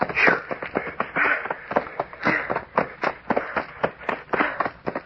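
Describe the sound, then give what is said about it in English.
Feet run through knee-deep dry leaves in the dark. The rustling and crunching comes as a rapid, uneven series of swishing bursts, loud and closely spaced. “Running through leaves up to my knees. We'll be through them in a minute. I feel like I was trying to run on inner spring mattresses.”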